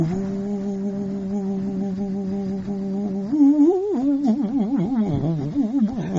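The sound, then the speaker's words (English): A voice imitates a flute playing a gamaka, the vibrato ornament of raga music, first holding one steady hummed tone, then breaking into a strong wavering vibrato that swings repeatedly up and down in pitch. “those of you who know music know gamakas is a vibrato. When the flute goes, ooh, that's not a gamaka. It has to go,”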